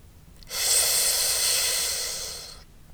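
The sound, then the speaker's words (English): A slow exhale through the nose, a single soft breathy hiss lasting about two seconds that swells briefly and then gently fades, with no talk. “Your exhale will move slowly through your nose after you close the mouth, letting your body settle.”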